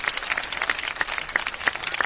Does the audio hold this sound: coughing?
no